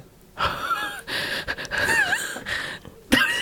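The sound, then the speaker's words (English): Unsteady, shaky breathing while crying, with a few ragged gasps and wheezy, catching breaths in uneven bursts and short pauses, fairly quiet and without speech. “It's my unsteady breath. It's very convincing.”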